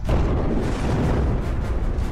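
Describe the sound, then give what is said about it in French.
An asteroid impact explosion effect rumbles as a deep, dense, loud roar that stays steady throughout, with no distinct separate blasts. “L'impact est instantané et dévastateur.”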